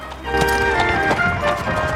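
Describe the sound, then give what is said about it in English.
A horse and cart moving down a narrow cobbled street, its hoofbeats sounding as a steady run of sharp clip-clops over a dense, continuous background. “In a bustling area some distance from the centre, a horse and cart makes its way down a narrow, cobbled street.”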